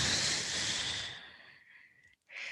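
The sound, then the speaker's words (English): A slow exhale during yoga breathing: a long, soft rush of air that gradually tapers over about two seconds, followed by a brief pause before the next breath starts. “Have a breath in. Let it out slow.”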